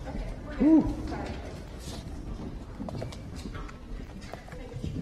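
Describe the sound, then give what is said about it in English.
Hooves of a herd of horses galloping out, a dense and continuous clatter that peaks in a louder burst near the start and then keeps a steady rumbling pace for several seconds, with voices mixed in underneath. “Wow, that's quite a herd that went out of here.”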